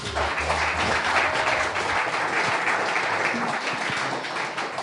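Audience applause welcoming a company's senior vice president to the stage: dense, sustained clapping at an even level throughout, with no voices standing out.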